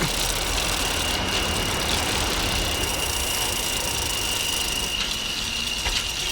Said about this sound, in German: Die drei Fragezeichen fuhren kreuz und quer durch Santa Monica.